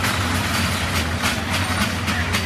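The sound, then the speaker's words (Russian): A children's railway ride at a busy agricultural fair gives off a steady mechanical rumble with a low hum and faint rattling. It stays even and fairly loud throughout. “Ну, как бы понятно, что это карусели, понятно, что это железная дорога, это для деток.”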